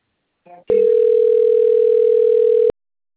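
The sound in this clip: A telephone tone signalling an incoming call from the bank: one steady, loud electronic tone held for about two seconds, just after a brief, faint blip.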